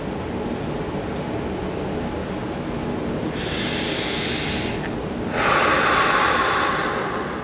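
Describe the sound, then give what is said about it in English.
Slow, full deep breaths taken in, held briefly at the top and then let out naturally, heard as soft airy rushes over a constant hiss, with a stronger, brighter exhale near the end. “Take 5 full deep breaths, holding it for a moment at the top and naturally exhaling.”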